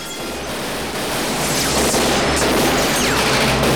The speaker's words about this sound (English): The bearded man and other armed henchmen open fire on the sedan.